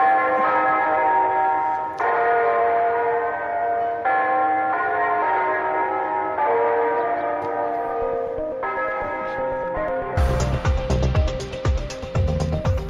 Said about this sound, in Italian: direi che si può anche iniziare con una campana, no?